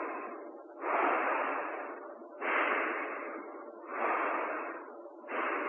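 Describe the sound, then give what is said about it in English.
Slow human breathing with long exhales, four broad airy swells in a steady rhythm, each rising quickly and then fading gradually, with no other sounds. “Even as you breathe and you listen to your breath,”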